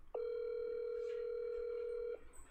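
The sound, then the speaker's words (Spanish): A telephone dial tone heard while a call is placed: one steady, unbroken mid-pitched tone holds for about two seconds, then cuts off abruptly, leaving faint background noise. “A ver, a ver, le voy a marcar a Nacho pues ya si me contesta bien”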